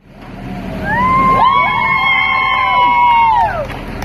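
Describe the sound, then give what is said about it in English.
Onlookers cheer in Charlottesville, Virginia, as city workers cover the Confederate statues of Robert E. Lee and Stonewall Jackson in black shrouds. Loud whoops and long, held cries swell and hang for a couple of seconds before fading. “On Wednesday afternoon in Charlottesville, Virginia, a handful of onlookers cheered as city workers covered statues of Confederate General Robert E. Lee and Stonewall Jackson in black shrouds”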